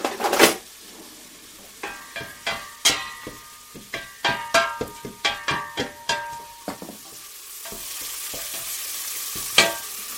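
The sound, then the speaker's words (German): Onions frying in a pan, stirred with a utensil: a steady sizzle beneath many quick, bright clinks and scrapes against the pan, coming in an irregular rhythm, with a louder hiss building toward the end. “Ah, die Zwiebeln kochen jetzt.”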